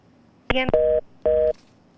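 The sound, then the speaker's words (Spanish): Telephone line tones after a dropped call: a short buzzy burst leads straight into a steady electronic beep, then a brief gap and a second identical beep, loud and alone on the line. “Aparentemente parece que hubo un inconveniente, que se nos cayó la llamada, pero vamos a intentar nuevamente”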